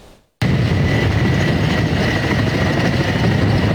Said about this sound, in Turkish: Helikopterlerin biri gitti, biri geldi.